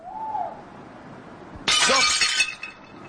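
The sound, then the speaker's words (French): A plate breaking on the floor: one sudden, bright crash of shattering crockery, with sharp, scattering fragments that die away over about a second after a quiet lead-in. “Qu'est-ce que t'as cassé ? J'ai cassé un... une assiette qui était par terre, là.”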